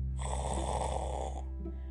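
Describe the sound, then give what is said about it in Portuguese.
A grandmother snores in a cozy bed, drawing one long, rasping, rumbling snore of more than a second that eases into a softer tail. No one speaks. “roncando numa cama aconchegante, numa casa sonolenta, onde todos viviam dormindo.”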